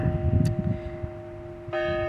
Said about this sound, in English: Sorry about that loud-ass bell in the background